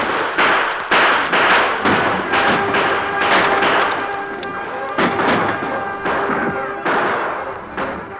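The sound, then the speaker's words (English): Gunfire in a shootout as outlaws fire on wagon guards and troopers: many sharp, loud cracks come in irregular succession over a dense, noisy background. “The crooks began firing at the wagon guards.”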